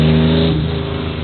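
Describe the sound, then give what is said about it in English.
A yellow Porsche's engine revving in a loud, steady mid-pitched roar that eases off slightly over about a second. “We have yet another Porsche. Absolutely beautiful yellow one.”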